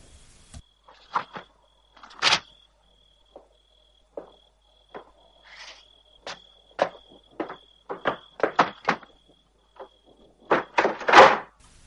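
Door sounds and footsteps as someone returns from a garden to a house door, picks up a package and goes inside: a scattering of short knocks, thuds and steps at an irregular pace, with louder clusters near the end.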